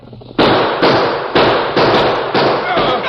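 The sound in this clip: Gunshots from a six-shooter ring out in a Western radio drama, a rapid series of sharp, booming cracks, each dying away briefly before the next.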